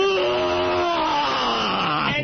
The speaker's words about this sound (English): You just yawn as hard as you possibly can. You just go,